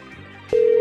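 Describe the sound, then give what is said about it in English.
Telephone ringback tone as a call is placed again: after quiet low background noise, a single steady electronic tone begins halfway through and holds evenly at a moderate level to the end. “I'm going to call back one more time because they sounded entertaining.”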